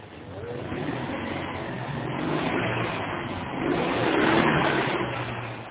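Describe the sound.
A car starts noisily and drives off: a rough, continuous engine drone that swells louder as it pulls away, heard alone in muffled, band-limited sound.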